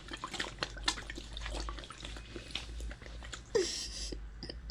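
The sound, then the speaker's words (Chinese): Someone is made to drink a liquid from a cup. Faint wet slurps and small gulps come with scattered drip-like sounds. “别看了，闻什么直接喝，来，我灌着你喝。”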